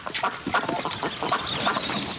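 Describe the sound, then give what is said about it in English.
Ducks being fed in a wading pool, giving many short, irregular quacking and clucking calls at moderate volume in an uneven chatter, with no talk. “tosses food to ducks in a wading pool”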